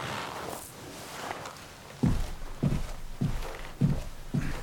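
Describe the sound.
Footsteps of someone walking away down a hallway in a house: five steady, evenly spaced thuds of moderate loudness, following a short stretch of soft background noise.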